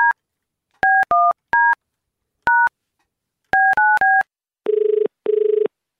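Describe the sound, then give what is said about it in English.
Touch-tone telephone dialing: a run of short, sharp two-tone beeps in uneven groups, followed by two longer, lower ringing tones on the line. “So let's dial him up”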